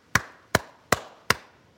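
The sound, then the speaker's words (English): A whale's coda of slow clicks: four sharp, loud knocks evenly spaced about 0.4 seconds apart. Each click has a brief ringing tail, and near silence falls between them. “They make the 5R3 coda, and it sounds like this.”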